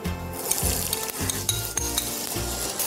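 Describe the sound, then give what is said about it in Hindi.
Onions sizzle loudly and continuously in hot oil in a pan beside cooked mutton, with recurring scraping and clattering from stirring cutting through the steady hiss. “इस pan में तेल डालना जैसे ही तेल गर्म हो जाए इसमें प्याज डालेंगे”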